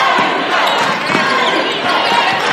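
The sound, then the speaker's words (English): Basketball dribbling on a court during a women's college game involving Dayton, with many quick, regular bounces under a steady roar of crowd noise. “And the dribble is Johnson between the circles”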